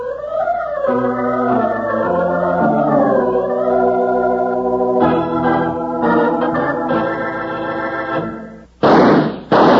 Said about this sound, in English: Hear those two shots